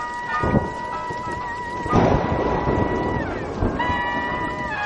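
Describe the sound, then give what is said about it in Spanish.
Thunder in a night thunderstorm in a 2007 horror film: a broad rumbling surge rises amid steady rain-like noise, with sustained musical tones running beneath. “Los relámpagos iluminan al pintor que ronda los 40 años. Fuera la tormenta ilumina la noche.”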